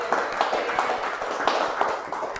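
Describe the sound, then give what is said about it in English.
A round of applause from attendees at a community coffee meeting, with hands clapping at a moderate level and individual claps standing out within the sound rather than blending into a dense roar. “Let's give Tina a round of applause for coming out.”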